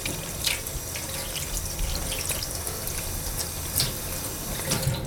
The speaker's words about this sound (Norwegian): bare skylle hendene litt. Og så ta på litt såpe og gni det ordentlig inn. Og så skyller man av såpen.